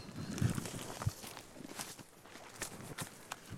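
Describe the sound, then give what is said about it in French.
Footsteps of people walking outdoors on a countryside path among broom shrubs: irregular, fairly faint crunching steps with a few firmer impacts, heard without talk. “Alors, on marche.”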